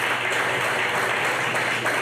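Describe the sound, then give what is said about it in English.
Audience applause during a live fill-in-the-blank segment at a football talk event: a dense, steady wash of many hands clapping that holds at an even level for the whole clip with no break. “So when you clap and applaud, when you're filling in the blank.”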